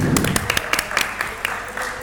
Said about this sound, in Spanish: Un aplauso para Mega Man. Aplaudid a Mega Man, qué buena persona, hombre.